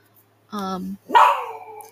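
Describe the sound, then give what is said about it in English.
A female pet dog howls in two drawn-out cries: a steady sustained tone, then a louder cry that slides downward in pitch and fades. “I'm so sorry about my dog in the background. She just likes to howl because my parents are here.”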